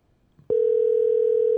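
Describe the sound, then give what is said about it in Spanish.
Telephone tone while placing a call: after a faint click, a steady, loud, single-pitched tone starts and holds unbroken to the end. “Ok, so llamando a Christy, here we go.”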